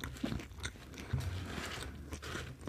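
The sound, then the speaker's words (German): Biting and chewing toast, with a few crisp crunches breaking through steady, rustling chewing noise at a moderate level. “ich muss dieses Toast weiter aufessen. Ich komme auch nicht voran.”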